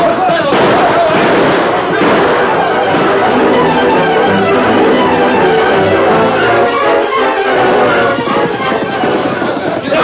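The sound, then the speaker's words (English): Gunshots ring out in a shootout, loud bursts and pops packed densely over shouting voices, with the noise staying intense across the whole stretch. “They're shooting up ahead.”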